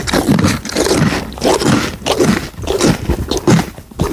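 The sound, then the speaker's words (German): A pony chews food loudly in wet, crunchy, grinding bursts that repeat in a steady rhythm of jaw movements. The chewing is close and continuous, with brief scraping sounds between the bites. “Da wird aber laut gekaut.”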